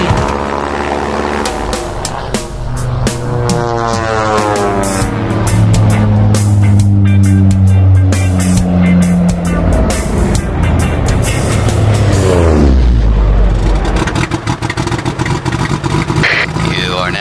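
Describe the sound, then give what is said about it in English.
A motor running loudly and steadily for the whole stretch, a dense droning roar whose humming tones slide down and then climb again in pitch as the engine speed changes. “Whoa, kill the motor, dude.”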